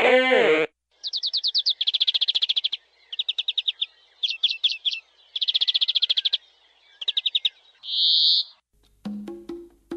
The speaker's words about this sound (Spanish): Hablar del canto de las aves.